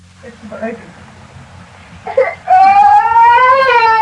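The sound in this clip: A baby crying: brief whimpers and fussing sounds give way to a loud, sustained wailing cry that rises slightly in pitch.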